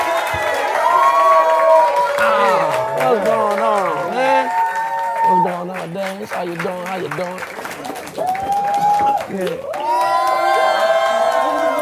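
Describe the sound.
Live audience cheering, whooping and making noise as a performer is introduced, loud and continuous, with voices rising above the crowd throughout.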